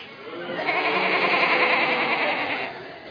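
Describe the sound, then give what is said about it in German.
A crowd of people imitates farm animals, women bleating like sheep and men lowing like cows, during a sermon. A dense, loud chorus of voices holds steady for about three seconds before easing off slightly. “Okay, the women here are the sheep. Okay, die Frauen hier sind die Schafe. The men here are the cows. Die Männer sind die Kühe.”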